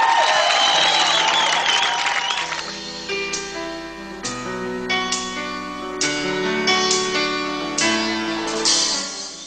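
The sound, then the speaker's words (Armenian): A crowd applauds and cheers for a contestant singer at a singing competition, a loud dense wash for about three seconds. Music with sustained tones and bright plucked attacks follows. “զինվեք ծափահարություններով, նա գալիս է 11-րդ համար, Ռաֆի Օհանյան, Սիրիան։”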